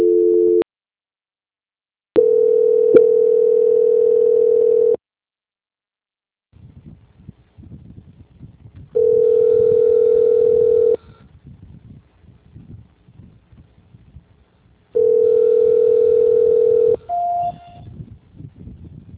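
Telephone line tones play while a call to a bank call center is transferred. A short dual tone is followed by three long, steady mid-pitched beeps separated by quiet gaps with faint noise, then a brief higher beep.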